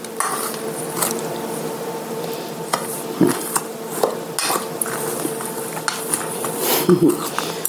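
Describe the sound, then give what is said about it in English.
A utensil stirs and scrapes in a bowl as ingredients are mixed with walnuts, with irregular clinks and knocks against the dish and people talking throughout. “use some more of this bag of walnuts. And now mixing these things together.”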